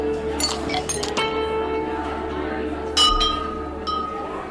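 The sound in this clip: Ice clinking in a glass at a rooftop viewpoint in Madrid, a few bright, sharp clinks over a soft background of music and murmuring voices.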